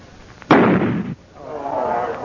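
A single loud gunshot fired at a powder load: a sudden sharp blast with a broad, roaring tail that cuts off abruptly, followed by a quieter rumbling noise.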